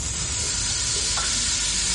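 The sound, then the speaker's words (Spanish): A rain stick, a typical Mexican handicraft, tipped so its filling trickles through. It makes a dense, even hiss of fine patter that stays at a constant loudness throughout, with no single strikes standing out. “Este es un palo de lluvia, es una artesanía típica mexicana.”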